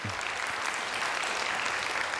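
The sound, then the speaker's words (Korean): An audience applauds to welcome a guest onstage, a bright, dense patter of many hands clapping at a steady, even level throughout, with no voices over it. “우리 송소리 박사님을 큰 박수로 맞이하겠습니다.”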